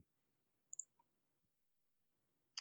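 Faint clicks of a computer mouse: a quick double click, a softer single click, then one more click after a pause.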